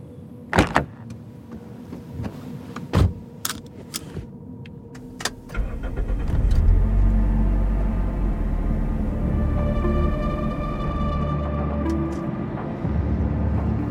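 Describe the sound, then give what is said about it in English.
A car drives through town, opening with a few sharp clicks and thumps from the door and cabin. An engine then starts and settles into a steady, low running hum that continues to the end. “as she drove through the town. Fortunately, her drive was uneventful.”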